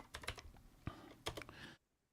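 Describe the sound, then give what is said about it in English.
Typing on a computer keyboard: soft, irregular clicking keystrokes in quick bursts, quiet throughout, then cutting off abruptly before the end. “But if you go on Wikipedia and type in Sam Sharp,”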